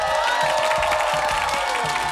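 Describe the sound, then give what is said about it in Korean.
A studio audience cheers and applauds in a dense, continuous roar of clapping and shouts that holds steady at full strength throughout. “갑자기 방청객들의 환호와 박수 소리가 들렸죠.”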